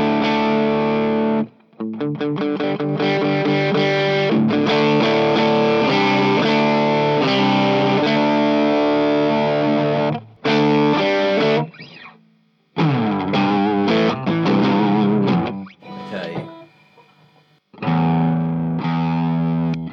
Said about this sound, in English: Okay, so let's hear how this drive pedal responds to having a boost at the front end. So this is without it.